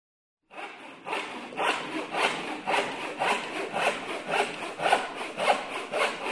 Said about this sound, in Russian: Опять какие-то звуки раздаются. Ты не знаешь, что это такое? Да это же настоящая пила!